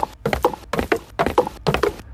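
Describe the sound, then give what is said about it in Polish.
Galloping horse hooves beat in five quick, rhythmic clusters of thudding strikes with short gaps between them, steady and fairly loud with no voices. “Słuchaliśmy fragmentu końskiego galopu”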